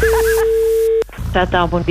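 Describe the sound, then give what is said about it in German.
A steady telephone call tone held for about a second during a radio station phone call, then a voice starts talking. “Telefon.”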